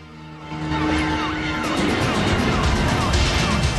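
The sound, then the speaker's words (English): Police cars, vans and an ambulance pulling onto a plant floor: engine and tyre noise swells in, with wailing siren tones sweeping up and down over a loud continuous roar. “police cars, vans and an ambulance pull onto the plant floor below”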